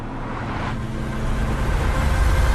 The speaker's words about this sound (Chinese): 突然一束强光闪过，车辆飞驰而来。